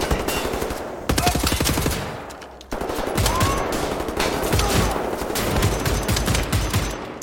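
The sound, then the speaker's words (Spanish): Gunfire in the first-person shooter Wolfenstein: The New Order: loud, rapid bursts of repeated shots that pound on almost without a break, with one short dip before the firing starts again. “Ahí está, lo caché con la escopeta.”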